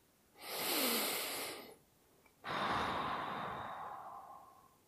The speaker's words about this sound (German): Ich atme bewusst und jetzt mal extra laut ein und aus.